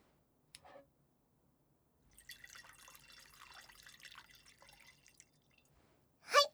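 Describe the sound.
Sake poured into a cup: a faint trickling stream lasting a few seconds, preceded by a brief tap and followed by a sharp, louder burst at the end.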